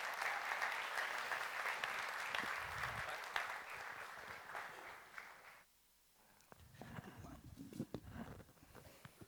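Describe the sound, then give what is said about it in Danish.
A church audience at Citykirken in Denmark applauds a welcomed guest speaker with loud, dense clapping that cuts off sharply partway through, followed by a few scattered claps and rustling. “Skal vi ikke give Thomas en kæmpe hånd og byde ham velkommen i Citykirken?”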